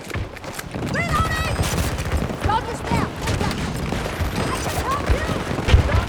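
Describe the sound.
Rapid gunfire in a shooter video game, with many dense, overlapping shots in continuous bursts. Voices talk over the shooting throughout.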